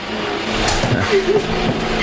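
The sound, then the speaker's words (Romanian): A bus drives up, and its engine makes a steady, fairly loud rumble with road noise that holds for the whole two seconds. “Hai, uite, vine autobuzul. Trebuie să-l prindem.”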